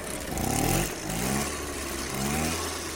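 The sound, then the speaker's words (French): A Mobylette moped engine revs in a few rising surges, its buzzing mid-pitched tone climbing and easing between bursts without a break. “Mobylette. Direction Vincennes.”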